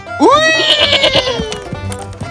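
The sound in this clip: A goat bleats loudly in an animated fairy tale, one drawn-out cry that jumps up in pitch, wavers, and then sinks away over about a second and a half.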